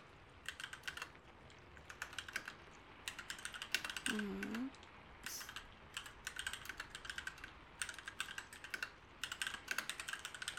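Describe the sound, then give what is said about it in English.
A computer keyboard clicks under steady typing in irregular bursts of quick keystrokes, separated by short pauses. The clicking stays light and fairly faint throughout. “I do not type slowly. Maybe I do because I'm trying to talk to you at the same time.”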